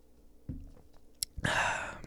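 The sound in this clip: Someone takes a sip of a cold coffee drink pulled from a very cold fridge: a few faint soft clicks and mouth sounds, then a short, louder slurping sip near the end.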